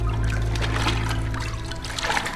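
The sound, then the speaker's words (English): Water trickling and sloshing as a bloodied, beaten body is slowly lowered off a step into shallow water, a continuous, fairly loud wash that holds steady over the whole span. “slowly lowers the bloodied and beaten body off of the step and into the water at his feet.”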